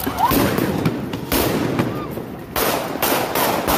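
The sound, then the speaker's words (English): Gunshots fired at police during a protest: several sharp, loud cracks burst out over a constant layer of harsh background noise. “Oh, they shot guns at them. Oh, they're shooting guns at them, real guns. Wow. They're blasting at the police.”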